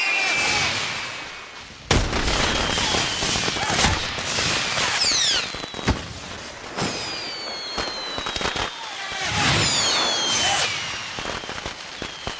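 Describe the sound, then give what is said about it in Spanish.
Fireworks rockets firing out of control: many loud, sharp bangs and crackling bursts, mixed with high whistling streaks as rockets shoot off, continuing densely throughout with no talk. “Los cohetes se descontrolan.”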